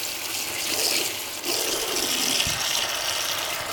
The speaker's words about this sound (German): bei diesem Geräusch, das ich gerade mache mit dem Waschbecken